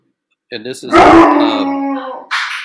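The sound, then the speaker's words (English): A dog howls and growls, starting with a short rough lead-in and swelling into a loud, drawn-out harmonic howl, followed by a brief noisy burst at the end. “dog's having some problems here, folks. Sorry about that.”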